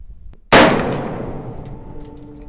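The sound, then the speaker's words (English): A single AR-15 rifle shot fired at an outdoor desert shooting range near Albuquerque: one loud, sharp crack with a long ringing tail that slowly fades. “We were shooting an AR-15.”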